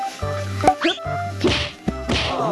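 Sharp thwacks from a demonstrated martial-arts move, a caught kick used to weaken an opponent's legs, land as a few loud, crisp impacts, each with a brief swish.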